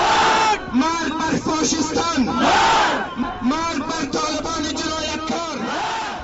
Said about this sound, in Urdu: ادھر کابل میں لوگوں نے طالبان کے خلاف احتجاجی مظاہرے کیے اور طالبان مردہ باد کے نعرے لگائے